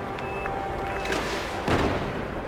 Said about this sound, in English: I'm going to try and do some damage to this ship. Where to start? It's huge.